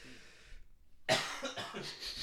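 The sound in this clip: A person who is choking breaks into a harsh coughing fit after a moment of quiet: a few rough, raspy coughs in quick succession, loud against faint background noise.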